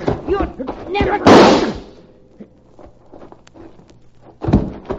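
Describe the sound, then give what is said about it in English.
A single loud rifle shot cracks out during a physical struggle, a sharp burst that briefly dominates before fading, with people talking before and after it. “She pushed that rifle barrel up to her neck and then she squeezed the trigger.”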